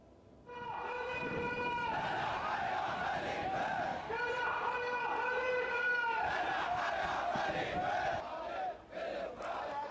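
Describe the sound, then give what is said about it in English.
A large crowd of protesters chants loudly in unison in the streets of Bahrain, calling for the downfall of the ruling regime. The rhythmic shouted slogans carry on without a break through the whole stretch. “Bahrainis have taken to the streets renewing calls for the downfall of the ruling Al Khalifa regime.”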